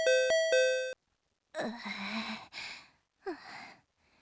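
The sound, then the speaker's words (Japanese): Doorbell ringing: a clear two-tone ding-dong chime at the start, then a pause and a few breathy vocal sighs and gasps. “絶対ピンポン押しながらニヤニヤしてるんだろうな。”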